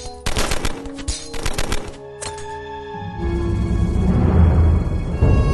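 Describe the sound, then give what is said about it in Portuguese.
Machine-gun fire crackles in a few rapid, loud bursts of sharp clattering shots, then gives way to a sustained rumbling wash with a low droning tone. “E o Toninho, assim como o Falcão desistiu da vida, acabou sendo completamente fuzilado também.”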